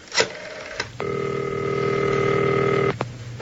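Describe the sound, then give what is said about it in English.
Telephone dialing: a few sharp clicks, then a loud, steady electronic tone holds for about two seconds before another click cuts it off. “Okay, I'm dialing the Winged Warrior.”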